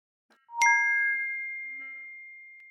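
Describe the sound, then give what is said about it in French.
A wristwatch rings with a brief soft click followed by a single clear, high bell-like ding that sustains and slowly fades, alone with no voices. “Même la nuit, elle sonne ta montre?”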